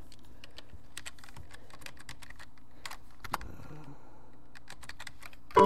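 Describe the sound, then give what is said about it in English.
Typing on a computer keyboard while entering a command on a Windows 2000 PC. Many quick, soft keystrokes fall in an irregular rhythm and stay fairly quiet throughout, with no voices. “And now what I'm going to do is type in narrator.”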